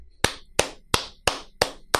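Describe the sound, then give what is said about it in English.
One person claps their hands six times. The sharp claps are slow and evenly spaced, each with a brief ringing tail, and nothing else is heard. “I got to give you an applause for that.”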